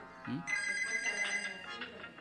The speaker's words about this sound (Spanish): Están llamando por celular y me están llamando por él también.